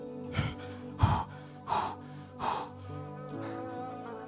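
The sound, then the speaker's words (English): A person sharply draws in breath, trying to suck in the belly: four quick, loud gasping inhales come at a steady pace, then a fainter one follows over a quieter breathy background. “I suck it in when I look in a mirror. Take the biggest breath I can.”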